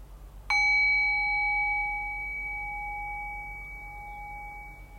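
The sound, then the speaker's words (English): A meditation bell struck once rings out with a clear, pure tone and bright overtones, then slowly fades toward silence over several seconds with no voices. “And so once again, I'll ring the bell. And so resting awareness on the decay of the bell, just allowing the bell to guide your awareness into silence.”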